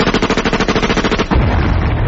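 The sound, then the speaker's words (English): Gunfire aimed at a butterfly: a loud, continuous rattle of rapid shots running for about two seconds, with no talking. “Good shooting, what?”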